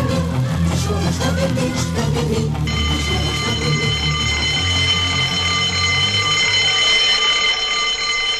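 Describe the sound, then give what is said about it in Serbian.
A school bell rings for the main break: a loud, bright, steady electric ring that starts after a few seconds of low, busy sound and holds unbroken to the end. “Danas u emisiji Koraka nauci malo ranije zvoni za veliki odmor”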